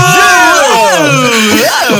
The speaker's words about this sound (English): what, you guys want to record ourselves screaming, I could put it back in there and put a post.